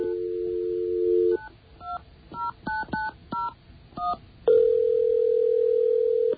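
A telephone is dialed: a steady dial tone, then a quick series of touch-tone key beeps, followed by a louder, sustained ringing tone, with no voices.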